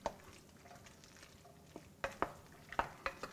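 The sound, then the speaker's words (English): A pot of shrimp corn chowder being stirred: faint, soft scrapes and a few light knocks against the pot over a low simmering hiss. “So a little stir.”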